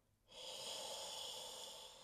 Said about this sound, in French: Ça c'est l'expire.